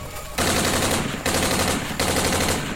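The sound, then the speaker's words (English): Rapid automatic rifle fire aimed into creatures overrunning a camp, loud and dense, coming in three sustained bursts with brief breaks between them. “To the Ink Dragon's credit, he saw Vorin firing his rifle into the masses of disfigured things invading the camp.”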